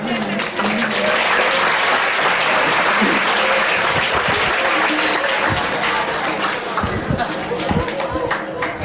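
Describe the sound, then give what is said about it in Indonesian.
Audience applause at a religious lecture on prayer: dense, steady clapping fills the whole clip at a high, even level, with a few sharper, louder claps standing out near the end. “Boleh kasih aplaus, gak apa-apa.”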